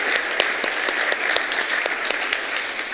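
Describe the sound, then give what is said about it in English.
Audience applause at a morning service as the children joining in are welcomed. Many hands patter in a lively way, with a few sharper claps standing out over a steady, loud level. “Let's give kids a hand for joining us this morning.”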